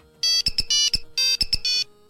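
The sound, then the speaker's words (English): A mobile phone ringtone used as a quiz buzzer plays bright electronic beeps in a short rhythmic phrase of long and short notes. The phrase is played twice with a brief pause between, loud and alone. “Ah, cell phone. Nice.”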